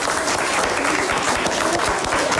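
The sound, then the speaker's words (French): Applause as quiz contestants applaud themselves at the end of a question round: dense, continuous clapping, loud and steady for the whole short stretch. “Qui s'applaudit d'ailleurs?”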